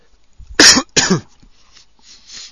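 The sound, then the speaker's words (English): Coughs from a person with phlegm on the chest: two loud, rough bursts in quick succession, followed by faint, low noise. “Uh-oh, first cough for a while.”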